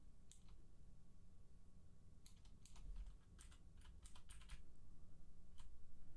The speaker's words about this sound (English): If I can type. I could type fast, but not accurate.